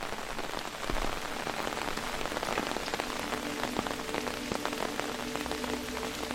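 Steady rain falling, as on a conical roof of dark wooden shingles. The patter is dense and continuous at an even loudness, with no voices.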